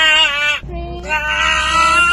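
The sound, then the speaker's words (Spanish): A person gives a drawn-out, nasal groan while doing a nasal swab self-test. Two strained, high, bleating cries are split by a brief break, sounding much like a goat. “Sí, parece una llama, un cuervo o una cabra, pero no, es un humano haciéndose el autodiagnóstico.”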